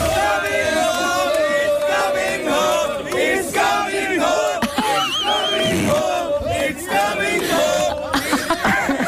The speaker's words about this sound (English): So that's what it's supposed to sound like, and this is what the Qatar locals are singing.